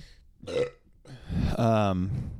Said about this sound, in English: we got a lot going on today with the burps